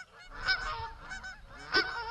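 Geese honking in a pen: several loud, nasal honks overlap, with one sharper honk standing out near the end.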